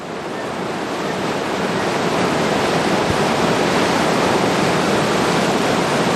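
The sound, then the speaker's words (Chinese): The Qiantang River tidal bore crashes against Zhenao Tower at Yanguan, a dense, unbroken roar of churning water that swells slightly in the first seconds and then holds loud and steady. “潮水撞现湛鳌塔，我想这一刻不只是壮观，更是属于岩观，属于钱塘江的经典瞬间。”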